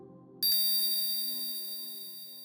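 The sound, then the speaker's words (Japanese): A hypnosis bell rings once with a bright, sustained metallic tone rich in high overtones. The ring decays slowly over a low steady drone that was already present before the strike. “催眠ベルを聞くたびに頭の中にもやがかかる。”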